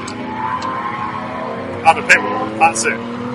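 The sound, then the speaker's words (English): Race cars run through the loop of a racing circuit, giving a steady droning engine whine that sits under close conversation between several people. “So we're stood, so for reference, you can hear the cars behind us. They are going through the loop,”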